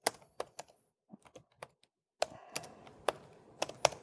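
Faint typing on a computer keyboard: a few scattered keystrokes, a short pause, then a denser burst of sharp taps in an irregular rhythm, with no talk.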